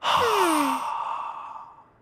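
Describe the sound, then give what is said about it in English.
A slow belly-breath exhale through the mouth: one long, loud, breathy sigh with a voiced tone sliding down in pitch, then fading gradually to quiet over about two seconds. “Let's slowly breathe in through our noses, then slowly breathe out through our mouths.”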